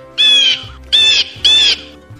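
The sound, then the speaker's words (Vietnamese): Unusual screeching of a human-faced bird: three harsh, high, harmonic screeches of similar length with short gaps between them, over a faint low hum. “Chim mặt người phát ra tiếng kêu rít khác với bình thường, cánh phạch một cái vọt qua đây.”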